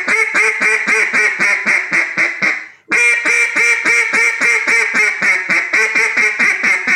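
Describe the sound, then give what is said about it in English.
Duck call blown in a hunting-style hail call: a long, loud run of rapid, reedy quacking notes that cuts out briefly after the first few seconds, then resumes and keeps going at the same fast, even pace. “whenever you go to blow a hunting style hill call, believe it or not, I'm blowing just as much air by doing this.”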